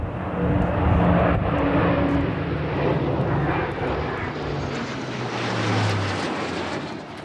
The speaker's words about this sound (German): Und dann gab es natürlich auch noch so einen Überflug von ehemaligen Offizieranwärterinnen und Anwärter. Die sind jetzt heute Piloten bei der Luftwaffe und die sind extra aus Neuburg an der Donau einmal über diese Zeremonie, über die Kaserne in Roth geflogen.